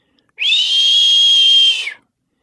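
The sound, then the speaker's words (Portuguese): A person whistles to imitate a creature in a home orchard at night, holding one loud, high, steady note for about one and a half seconds. The whistle tails off briefly at the end, with no other sound around it. “assobia lá no pomar de casa”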